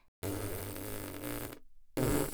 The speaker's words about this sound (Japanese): 嬉しいって思えば思うほどおなら出る。臭くてごめんね。